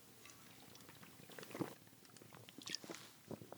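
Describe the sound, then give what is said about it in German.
Quiet sipping of a drink, with a few soft, wet slurps and small mouth sounds spread across a few seconds and no voices. “Ich muss mal kurz einen Schluck trinken im Moment.”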